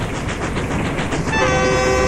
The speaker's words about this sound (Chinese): 火车载着宁儿仨向省城驶去